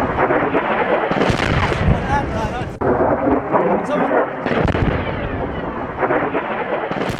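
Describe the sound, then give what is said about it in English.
Multiple blasts at the airport in Sana'a, Yemen: several heavy, booming explosions that arrive at irregular intervals, each a loud, broad rumble. One has a sharper crack at its onset. “That's the sound of multiple blasts at Yemen's airport in the capital Sana'a yesterday.”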